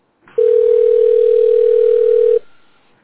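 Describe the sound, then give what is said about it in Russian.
A telephone tone sounds on the line while an extension number is being dialed: one steady, clear, mid-pitched beep held for about two seconds, then cut off abruptly. “Введите добавочный номер абонента. Хорошо, набираю номер.”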